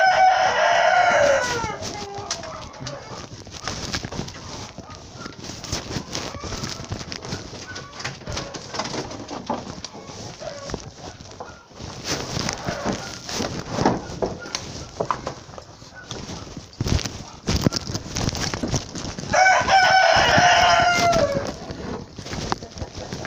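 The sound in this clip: Hens clucking and a rooster crowing, with loud harmonic crowing calls at the very start and again near the end, over a steady noisy background of softer bird sounds throughout.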